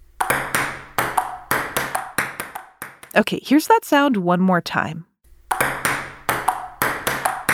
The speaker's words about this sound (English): Ping pong!